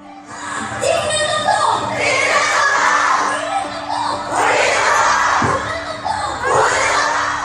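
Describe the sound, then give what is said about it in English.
A large crowd of Korean women protests spy-cam pornography filmed in public bathrooms and change rooms. High-pitched voices shout in loud, continuous surges that swell and dip without a break. “That's the sound of 70,000 Korean women protesting an alarming rise in pornographic videos made from spy cams placed in public bathrooms and change rooms.”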